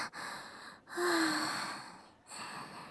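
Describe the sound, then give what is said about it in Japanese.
Deep breaths from a nervous person: loud, airy, noisy breathing in a few long strokes with short pauses between them. “深呼吸。”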